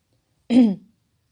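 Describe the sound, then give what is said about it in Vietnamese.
A single light cough from a man, a brief soft throat-clearing burst heard alone in silence. “Hắn giơ tay ho nhẹ một tiếng.”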